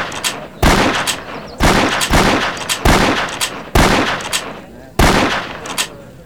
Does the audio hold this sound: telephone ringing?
no